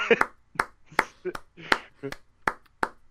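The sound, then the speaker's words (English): Sharp claps repeat at a steady, even pace through the whole stretch, mixed in with talking voices. “It's gonna keep clapping for a bit.”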